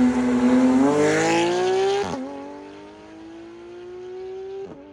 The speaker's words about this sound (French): accélération de supercar.